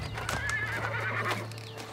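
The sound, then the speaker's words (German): Horses pulling a royal carriage whinny in a high, wavering neigh, with clopping hooves and the carriage rumbling past underneath. “Die königliche Kutsche. Sie ist ja seit Jahren nicht mehr vorbeigekommen.”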